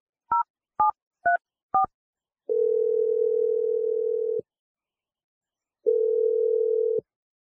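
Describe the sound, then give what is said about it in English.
Telephone keypad tones as an outgoing call is dialed: four short, crisp beeps in quick succession, then two long, steady tones separated by a pause. No voices. “All right, here we go. I'm dialing your number right now.”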